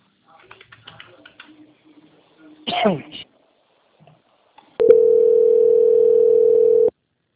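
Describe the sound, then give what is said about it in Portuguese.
A telephone line tone while a call is transferred: one steady, even hum lasting about two seconds, preceded by faint scattered clicks and a brief burst of noise. “Eu peço que o senhor aguarde em linha, que eu irei transferir a ligação do senhor para o nosso controle de qualidade”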